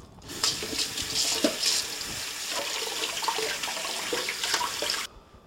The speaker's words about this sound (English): Okay, now it's time to stop and wash your hands.